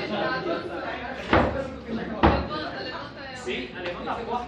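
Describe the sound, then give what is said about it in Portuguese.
Two sharp knocks strike a door that is being lifted, about a second apart. Voices chatter steadily underneath. “Levanta a porta. Ah, só sei bater duas vezes na porta.”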